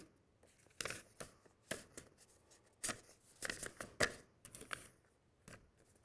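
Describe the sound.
Faint rustling and handling of a paper envelope and index cards: soft crinkles, slides and light taps come in irregular bursts, quiet and with no talking.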